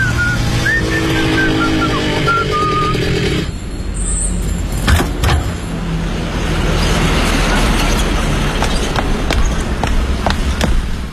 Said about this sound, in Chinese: 快递员潘文杰愉快地吹着口哨，骑着他心爱的宝蓝色的摩托车来到一家公司的前台。